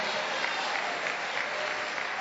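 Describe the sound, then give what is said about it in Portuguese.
A church audience claps steadily, a thick, even patter of many hands that stays constant in loudness from start to finish. “Aleluia, lá atrás, essa que pôs a mão na cabeça, aplaude a Jesus e dá glória”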